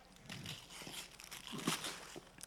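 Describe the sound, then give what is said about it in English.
Packaging being ripped open by hand: a run of crinkling, tearing bursts that rise and fall in loudness over a couple of seconds, with a louder crunchy tear near the end. “He's ripping in. There we go.”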